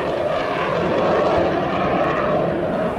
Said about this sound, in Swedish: The Saab Gripen from Sweden, so our lead fighter in the South African Air Force, utilized as a supersonic fighter. Ljudet från motorn är öronbedövande.